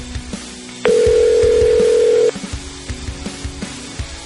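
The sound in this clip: A telephone ringback tone sounds while a call is placed: one steady, continuous tone lasting about a second and a half, over low, faint background noise.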